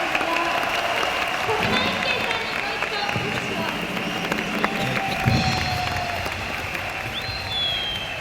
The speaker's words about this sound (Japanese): 拍手を。